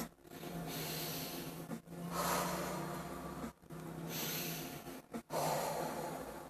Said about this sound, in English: Deep breaths. In through the nose. Out through the mouth.